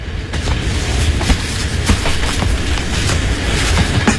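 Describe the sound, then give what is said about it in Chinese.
A passenger train bound for Guangzhou rolls along, heard from a soft sleeper car. A loud, steady low rumble carries faint, irregular clicks of wheels over the rails, with no talk. “我跟他一起上了到广州去的火车了。”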